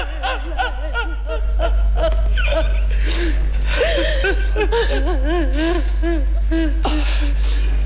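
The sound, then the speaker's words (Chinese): An elderly woman wails and sobs, her voice wavering up and down in pitch in long, continuous cries over a steady low hum. “你不要哭，不要哭啊！”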